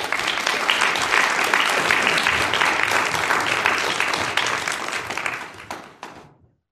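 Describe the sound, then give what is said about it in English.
Audience applause welcomes the poet Dana Gioia: a loud, dense clatter of many hands holds steady for about five seconds, then tapers off and stops. “I have a new one now, and it is Dana Gioia. Please welcome Dana Gioia.”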